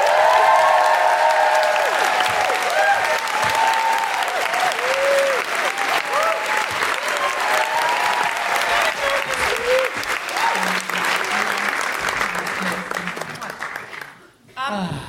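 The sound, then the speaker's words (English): A live audience applauding and cheering as a guest is welcomed, with loud, sustained clapping and whooping voices early on. The applause carries on for about fourteen seconds, then cuts off abruptly. “Please put your hands together and make excited woohooing noises for Kate O'Donnell!”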